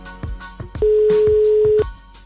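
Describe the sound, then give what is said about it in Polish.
A telephone call is dialed: a few quick, short electronic tones, then a single loud, steady tone that holds for about a second before cutting off. “Dzwonimy do Natalii.”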